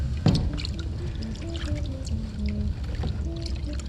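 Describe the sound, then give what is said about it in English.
A dish is dipped into water and rinsed: a sharp splash near the start, then soft pouring and trickling water, faint and low in level. “the dish in the water, I cleanse it from all these qualities and rinse it”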